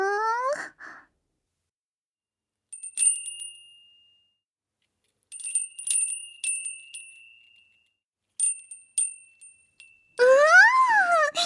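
A Japanese summer wind bell (furin) rings in several bursts of bright, high metallic tinkling, each decaying quickly, with moaning vocal glides before and after the chimes.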